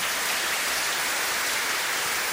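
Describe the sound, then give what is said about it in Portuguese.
Applause during a church service for a book and the children: a soft, even, rain-like patter of many hands clapping continuously, without pauses or voices. “Para o livro e para as crianças, uma salva de palmas bem bonita então.”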